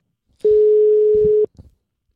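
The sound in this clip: A telephone ringing tone sounds on an outgoing call as a single steady, mid-pitched beep lasting about a second, followed by a couple of faint low thumps.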